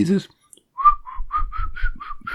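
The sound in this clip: A person whistles a classical melody as a run of about eight short, clear, mid-high notes in a steady rhythm, following a brief voice at the very start.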